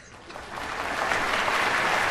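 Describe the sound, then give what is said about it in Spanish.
Audience applause at a high school choir's annual autumn concert, swelling over the first second into steady, dense clapping that continues without voices. “Los Rossi aplauden junto con el público.”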